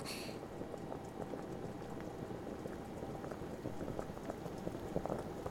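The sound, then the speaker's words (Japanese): Water in a cooking pot begins to boil, producing a faint, steady bed of dense bubbling and fizzing with small crackles, continuous and without voices. “いい感じに沸騰し始めたわね。”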